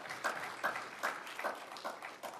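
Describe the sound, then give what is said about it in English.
A church audience claps in fairly even, rhythmic pulses, a moderate patter of hands that holds steady throughout with no voices. “Yeah, you can clap for that.”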